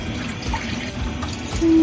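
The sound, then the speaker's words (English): Chicken broth poured into a pan while cooking: a steady wet splashing and trickling that holds at an even level for about two seconds and swells slightly louder at the end, with no talking. “Now you can add your chicken broth. I'm not gonna do it all though.”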